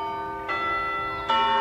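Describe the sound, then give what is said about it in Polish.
Local church bells ringing: two clear, resonant strikes, the second louder than the first, each leaving a sustained shimmering tone with rich overtones. “że dzwony lokalnego kościółka wzięły ją z zaskoczenia”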